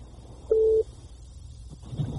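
A telephone tone marks an incoming caller on the line: a single short, steady electronic beep at mid pitch, followed by quieter low rumbling noise.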